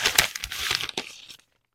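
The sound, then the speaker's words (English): Paper crinkling and tearing as an envelope is opened at an award announcement. Quick, bright bursts of rustle at moderate loudness run for over a second with no voices, then stop. “let me get the envelope here”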